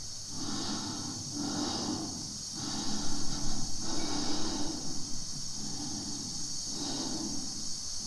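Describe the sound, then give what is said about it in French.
Amplified breathing on a film soundtrack forms a slow, steady cycle of hissy inhales and exhales over a constant high hiss, with no voices. “Alors, on entend ce souffle pendant pratiquement tout le temps de la séquence, qui est très longue.”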